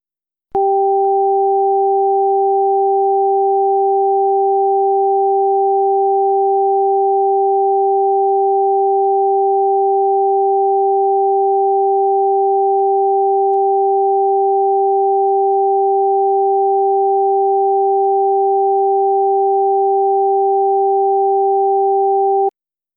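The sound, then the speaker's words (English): Two steady pure tones for a hearing test, one high and one low, meant to play in different ears: both sound together as an unbroken, even electronic hum for about 22 seconds, then stop abruptly. “Here's the pattern. If you hear a high tone in one ear and a low tone in the other ear, decide which ear is hearing the high tone.”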